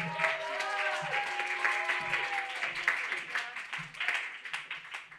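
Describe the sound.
An audience claps for a poet taking the stage at a poetry reading, steady clapping with voices mixed in, tapering slightly toward the end.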